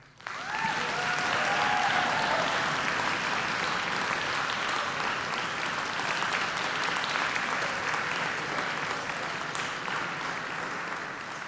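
An audience at an Ithaca College wind ensemble concert applauds to welcome a guest conductor, a dense, even wash of clapping sustained at a moderate level for about eleven seconds, tapering slightly at the end.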